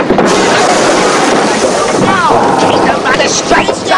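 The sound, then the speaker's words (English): Wind blows at sea around a sailing ship, a loud, steady rushing roar that continues without pause. “Just fine. We're on the right course. As long as this wind keeps up, nothing can go wrong.”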